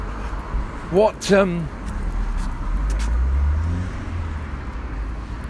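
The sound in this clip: A car drives quickly round a corner, its low engine rumble swelling for a couple of seconds and then easing off, after a brief burst of voices.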